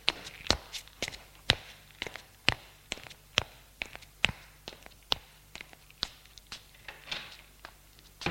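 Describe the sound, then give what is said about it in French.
Footsteps of a man leaving the kitchen and going up to his room: many soft, evenly paced steps that sound alone and quiet. “Puis, il sort de la cuisine. Monte à sa chambre.”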